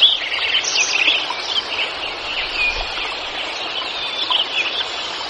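Birdsong fills a meadow soundscape recorded in 1988 at Lincoln Meadow: a dense, continuous chorus of high chirps and trills over a steady, broad background wash, fairly loud throughout, with no talk.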